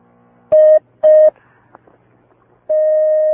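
Telephone line tones as a call is picked up: two short, steady electronic tones, a pause with faint clicks, then a longer sustained tone that holds to the end.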